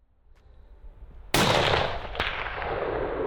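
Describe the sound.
A single sharp gunshot from a hunting rifle cracks out of near-quiet, then a long rolling boom trails after it, with a smaller click partway through the fading rumble.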